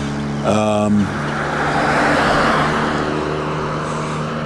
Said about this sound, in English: they zoom past, zoom, zoom, zoom, and they're really loud automobiles.